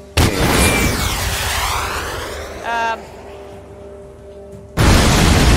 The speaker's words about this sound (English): Okay, so now we destroy this thingy. The security tank.